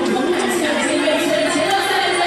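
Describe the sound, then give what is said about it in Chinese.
Football fans in a stadium cheer for the home team at Pingtan, where a crowd of 4,785 watches. Their voices merge into a steady, broad roar with no single voice or chant standing out. “现场的每一位球迷都在竭尽全力为主队加油呐喊。”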